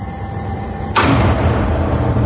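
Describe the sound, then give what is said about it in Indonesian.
A door being closed slowly in an audio drama: one abrupt swishing rush of noise partway through, trailing into a lingering, even hiss, with no voices. “Aku menutup kembali pintu itu perlahan.”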